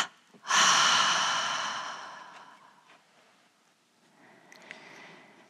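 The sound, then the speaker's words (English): Breathing in a meditation exercise: one strong, breathy exhale swells and slowly fades, then a much fainter breath follows after a short quiet gap. “Double exhale. Double inhale. Tense and hold. Double exhale.”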